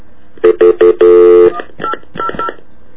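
Telephone keypad dialing tones sound as a call is placed to a food company's consumer information line. Three short, even beeps are followed by one longer held tone, then a few more beeps at differing pitches. No voices are heard.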